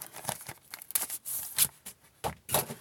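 Crinkling plastic bag as a comic book is pulled out of it, with many short, irregular crackling and rustling bursts of varying loudness.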